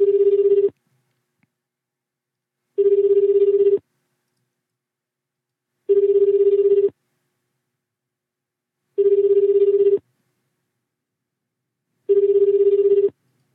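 Ringback of an outgoing telephone call to a business thought to be closed: five evenly spaced tones, each about a second long, separated by longer silences, with no voices.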